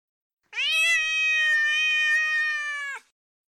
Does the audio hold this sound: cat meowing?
yes